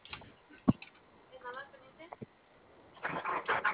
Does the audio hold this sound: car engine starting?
yes